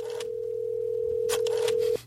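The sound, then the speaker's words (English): A vintage telephone's dial tone hums as a steady, unbroken mid-pitched tone for about two seconds, with a few faint clicks over it, then cuts off abruptly. “Let me call him first. Let me dial him up. By the way, I love this vintage phone.”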